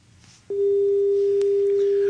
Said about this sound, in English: these dial tones are really concerning me. It's about the sixth or seventh since last night.